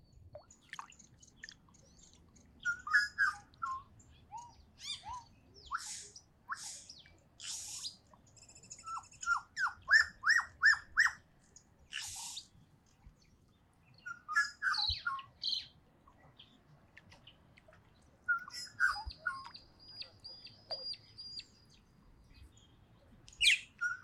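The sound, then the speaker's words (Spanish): Birds chirping and singing at a lake: many short, high chirps, whistles and trills in irregular bursts, fairly faint above a low, quiet background with no talking. “Si escuchaste el sonido de fondo, son de las aves. ¿Quieren escuchar un momento de esto? Aquí les va.”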